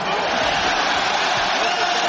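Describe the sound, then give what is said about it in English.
A crowd roars in celebration as the New York Knicks win Game 5 of the NBA Finals and the basketball championship. The cheering is a dense, steady, loud wash of noise with no pause. “That was the sound of the New York Knicks winning Game 5 of the NBA Finals and ultimately winning the NBA Championship.”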